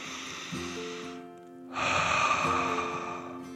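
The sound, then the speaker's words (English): A deep breath is drawn in, followed by a short pause and then a longer, louder breath out, both airy and hushed, over soft, sustained background music. “Then he took a deep dragon breath in and out.”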